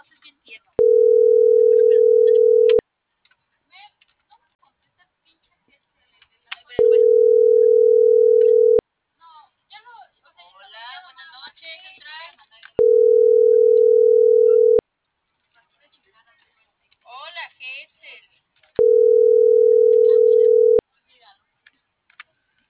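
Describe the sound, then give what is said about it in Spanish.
Telephone ringback tone while a call is dialed: four steady, mid-pitched tones, each about two seconds long, repeating roughly every six seconds, with faint talk in the pauses between them. “ahí yo le estoy marcando a las 6:48.”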